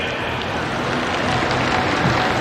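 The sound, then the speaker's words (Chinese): Applause for the winning team at a robot-fighting match, an even, continuous spread of clapping that holds at a constant level from start to finish. “我们把掌声送给刚刚获胜的浦井致谢队。”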